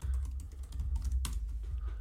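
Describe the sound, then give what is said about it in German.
An email being typed live on a computer keyboard: a rapid, steady stream of faint key clicks, with one louder clack near the middle. “Diese Mail wird gerade live on air geschrieben”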